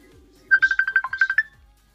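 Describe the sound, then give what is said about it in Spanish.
An incoming call sets off a phone ringtone: a rapid string of short, bright electronic beeps at one steady pitch, with one lower note near the middle, lasting about a second before it stops. “No, no, no. Me estás llamando a mí. Sí, sí, te he llamado a ti.”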